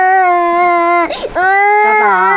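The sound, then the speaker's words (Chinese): An infant cries loudly in sustained, high wailing tones that break off briefly in a ragged catch partway through before the wail resumes. “谁抱都哭，这孩子。 那小孩哭不是正常的吗？”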